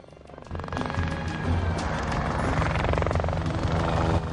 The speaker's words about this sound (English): Looking up, he notices a helicopter above him.